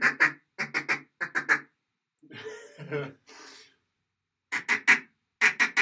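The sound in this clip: A duck call blown with cupped hands while practising the 'gaga' note gives loud, nasal quacks in quick pairs and triplets. A short stretch of talk breaks the series before more bursts follow.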